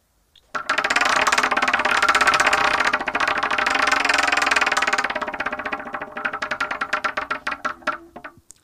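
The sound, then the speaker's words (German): A game-show prize wheel being spun: a dense, loud rattle of rapid ticking clicks holds steady for several seconds, then slows into distinct separate clicks as the wheel winds down. “wir drehen das Wheel of Torture”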